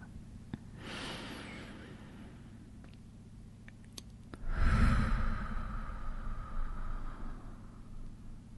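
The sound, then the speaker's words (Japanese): Slow, deep breathing during a guided relaxation exercise, in through the nose and out through the mouth: a faint airy breath comes first, then a longer, louder, breathy exhalation that fills the second half. “まず深呼吸をゆっくり3回しましょう。”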